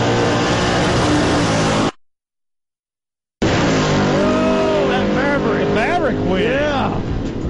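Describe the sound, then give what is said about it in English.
Engines roar during a drag race between a Ford Maverick and an old Camaro, a loud, harsh, sustained blare. It cuts abruptly to a short silence, then returns with revving that swoops up and down in pitch. “It's like a Maverick and an old Camaro. Check that. All right, a little nitrous in my ears here.”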